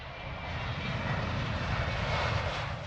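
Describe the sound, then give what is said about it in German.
A passenger plane's engines roar during a flight to Berlin, a steady, dense, even drone that is heaviest in the low range and holds at one level throughout with no other sounds. “Tatsächlich steigen am Abschlusstag des Flugangstseminars alle 11 Kursteilnehmer in die Maschine nach Berlin.”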